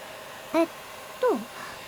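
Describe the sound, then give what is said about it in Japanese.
A hair dryer blows with a steady, even hiss throughout, and two brief vocal sounds rise above it. “このドライヤー、 これはうちの会社支給の特別製、その名もメイドライヤーだよ。”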